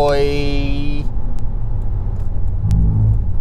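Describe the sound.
A car engine rumbles low and steady while overtaking another vehicle on the road.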